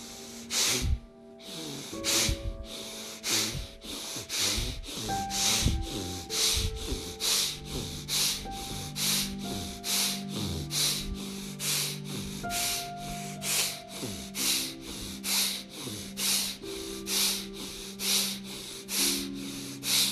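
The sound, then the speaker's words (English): Forceful breathing exercise, with sharp inhales as the arms rise and strong exhales as they are pulled down fast. Many quick, breathy bursts repeat at a steady brisk rhythm over soft tonal music. “raise your arms with me with inhalation and breathe out, pull it down fast.”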